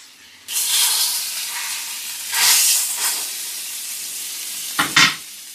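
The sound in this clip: Salted pork belly fries in a pan, a continuous bright sizzle and hiss that swells into a few louder spitting bursts before settling back to a steady crackle, with no talking.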